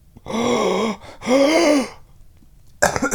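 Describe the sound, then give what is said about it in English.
Two drawn-out, voiced gasps of shock, each lasting under a second at a steady mid pitch, with a short pause between them. A brief, noisy burst follows at the end. “sharp intake of breath. Sharp intake of breath.”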